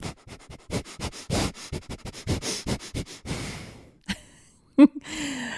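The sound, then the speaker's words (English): Forceful breaths are pushed out through the nose in a rapid, rhythmic run of many sharp puffs, followed by a pause and then a few isolated, louder exhales. “It's just a forceful exhale out through the nose, and you continue exhaling out through the nose. So it will sound a little something like this.”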